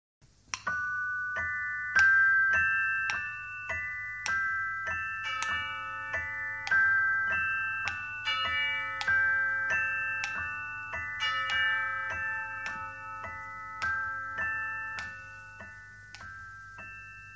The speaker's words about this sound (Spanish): Al sonar las 3 de la mañana, los muñecos se paran a bailar.